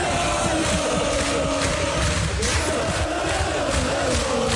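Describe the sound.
A football crowd in the stadium stands cheers Elversberg's promotion to the Bundesliga, a dense, steady roar of many voices that stays loud throughout without a break.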